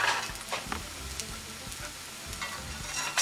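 Sizzling and crackling of egg-washed eggplant frying in oil, a steady hiss with scattered pops and a few soft knocks of stirring.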